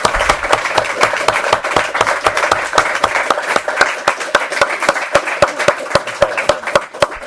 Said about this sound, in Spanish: La verdad que muchísimas gracias, Antonio, por supuesto, y un fuerte aplauso